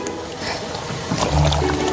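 Water is poured to rinse a long, muddy lotus root, with a soft liquid splashing that swells into a louder, fuller gush in the second half.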